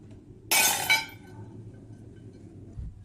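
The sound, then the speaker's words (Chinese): Rejected kiln-fired pottery pieces smash in a sharp, bright crash, followed at once by a second clattering burst of shards. A faint low thud comes near the end against quiet background noise. “每次窑炉烧出来肯定有不满意的作品，这摔了20多件，在我们来说还不算是很多”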